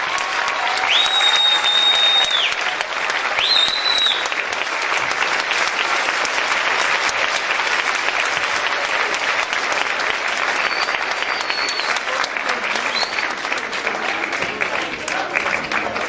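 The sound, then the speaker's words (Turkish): Sustained applause for a group of Turkish children fills the whole stretch, a dense, steady wash of clapping from a crowd with no break or fade. “Türk çocuklarına büyük bir alkış.”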